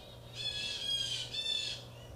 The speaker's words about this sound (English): Now, I hope you can hear these birds. Of course, we're recording in the afternoon, as we do these days from Babyland. These birds are nonstop right now.